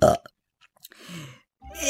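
A person burping: one croaky, rasping belch of about half a second, set between a few short, faint vocal sounds.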